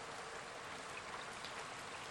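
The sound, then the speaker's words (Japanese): Rain falls on a summer night as a faint, steady hiss that stays even and unbroken throughout. “夏、やはり雨が降っていた。”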